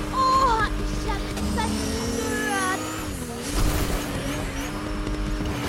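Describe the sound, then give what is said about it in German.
A motorcycle engine drones in a video game while the rider drives along. The steady, buzzing engine tone shifts in pitch at a few points, with dips and swells in loudness. “Und ich fahre gerade mit meinem Motorrad.”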